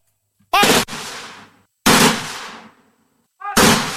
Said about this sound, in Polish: Dla uczczenia bohaterów, salwa honorowa! Do nogi broń pod oddział spocznij! Do salwy honorowej, trzeba! Ładuj! Salwo!